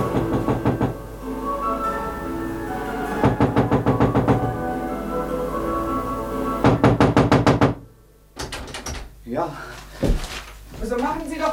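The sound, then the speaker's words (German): Knocking on a door in a radio drama comes in several bursts of rapid, hard raps separated by short pauses, and a voice speaks between and after them. “Ja, wir klopfen schon seit 5 Minuten, mein Herr.”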